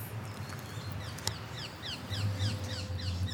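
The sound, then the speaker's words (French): Green parakeets calling in a city: a rapid run of many faint, high, squawking chirps, each sweeping downward, over a steady low background hum. “Ça, c'est une perruche. C'est les perruches vertes, ça.”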